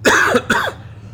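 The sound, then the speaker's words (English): Two sharp coughs from someone with popcorn caught in the throat, a loud first burst followed by a slightly shorter second one, then a fading rasp into quiet. “I think I just got some of that popcorn in my throat there.”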